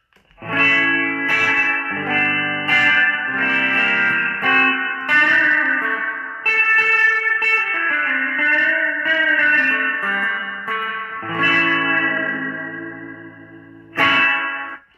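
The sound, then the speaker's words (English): Electric guitar through a Boss '63 Fender Reverb spring reverb pedal, dwell near four o'clock, mix near two o'clock, tone rolled back, playing a run of bright chords and single notes with lingering reverb tails, alone. “this is a little sample of just the Boss 63 Fender Reverb.”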